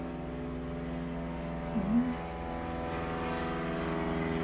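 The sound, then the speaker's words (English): An airplane passes overhead as a steady low droning hum with layered tonal harmonics, fairly faint and unchanging, with one brief small bump partway through. “I've got a lot of airplane noise over here. I don't know how much that's coming through, so that's why some of the pauses.”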